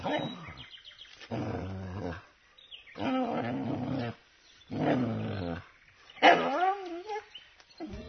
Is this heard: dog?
yes

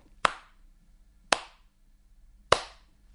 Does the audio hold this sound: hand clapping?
yes

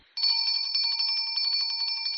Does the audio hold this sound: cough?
no

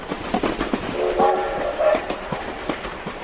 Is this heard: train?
yes

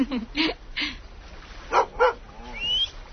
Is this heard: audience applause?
no

